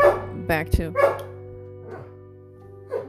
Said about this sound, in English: This dog is plumb crazy, I'm telling you. I apologize for the barking.